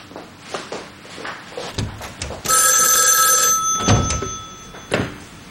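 A telephone bell rings in one long, bright, metallic burst, preceded by a few soft knocks and thuds.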